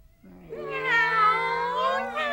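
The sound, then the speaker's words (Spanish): A kitten at a shelter for stray cats gives one long, drawn-out meow that starts low, climbs into a bright, strained tone and holds steady to the end. “¿Tú eres quien cuida a esos gatitos?”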